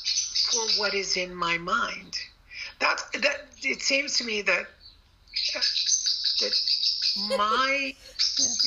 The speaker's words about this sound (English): the bird is going Tweet, crazy. tweet. Yeah, it's joining in there.